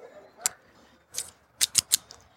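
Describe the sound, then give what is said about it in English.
A Casa Cuevas Patrimonio cigar being cut with a cigar cutter: a few sharp, dry clicks and snips over near-silence, the last three coming in quick succession. “Cut the cigar.”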